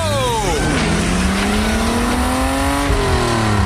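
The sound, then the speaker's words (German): Race car engine accelerating hard out of the pit lane on fresh tyres, loud and continuous, its pitch climbing steadily through gear changes with a brief drop at each shift. “Achtung, Wagen Nummer 12 biegt in die Boxengasse ein. Das Auto läuft klasse, das Fahrwerk ist fantastisch. Jetzt noch neue Räder drauf, los! Go!”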